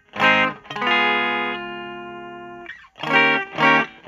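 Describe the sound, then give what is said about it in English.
Stratocaster electric guitar played through a clean tone, strummed chords ringing bright and harmonically rich, one chord sustaining and slowly fading before a couple of sharper strums follow. “This is the Strat Clean.”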